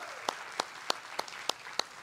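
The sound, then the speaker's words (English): A church audience welcomes the online Vineyard family with applause: six sharp, evenly spaced claps in a steady rhythm over a soft crowd wash. “Hey, can we make some noise and welcome in our online Vineyard family? Come on, let's hear it for them.”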